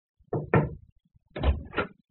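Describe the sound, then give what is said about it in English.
Knocking at a door as a servant interrupts a private meeting: two pairs of soft, muffled knocks separated by a short pause, heard alone. “However, we were interrupted in our deliberations when one of the servants knocked at the door.”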